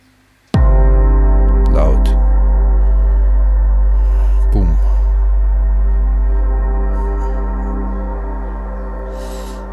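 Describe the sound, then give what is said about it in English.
A single deep bass drum boom hits hard and rings on, its low rumble slowly fading over several seconds while sustained tones hang above it. “Yes, we have a boom. A boom. Bass drum boom.”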